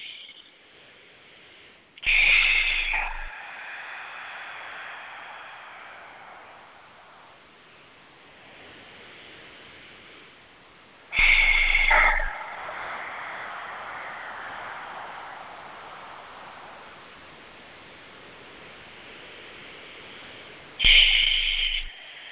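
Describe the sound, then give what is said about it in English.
Long, slow, deep breaths taken for centering before meditation: three strong airy rushes, each trailing into a soft, drawn-out hiss that slowly fades before the next one begins. “We want to just center ourselves by taking some long, slow, deep breaths. So let's do that. Just centering, slow, deep breaths.”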